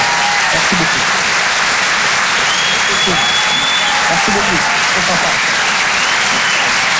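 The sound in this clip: Steady, loud applause from a comedy club audience after a stand-up set, continuous throughout, with a voice briefly thanking the crowd over the clapping.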